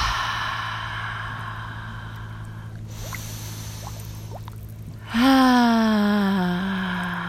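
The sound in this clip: Deep breathing exercise: a long, airy breath is followed by a loud voiced out-breath, a sighing tone whose pitch slowly sinks as it fades. Soft sustained tones hum underneath.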